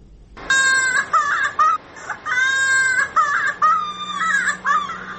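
A young child cries during polio vaccination in Helmand, Afghanistan. Several loud, high, sustained wails come one after another, broken by short catches of breath.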